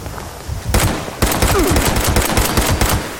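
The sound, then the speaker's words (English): Enemies fire guns in a video game: many sharp, loud shots crack in rapid bursts, starting after a brief quieter moment and continuing almost without pause to the end. “More guys are shooting at me. Maybe I should shoot back.”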